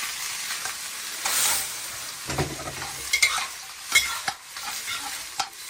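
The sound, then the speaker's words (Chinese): Dried shrimp and cut cattail shoots are stir-fried in a wok, giving a continuous sizzle broken by irregular scraping bursts and clatters of stirring, with no talk. “虾米， 炒个十秒，倒入切断的蒲菜。 蔬菜， 对，翻炒三分钟。”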